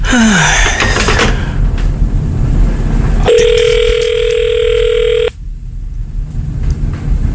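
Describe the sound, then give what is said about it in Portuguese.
One long, steady ringback tone on an outgoing phone call, loud and level for about two seconds after a stretch of mixed louder sound, then a quieter tail. “Vamos ligar pra esse cara.”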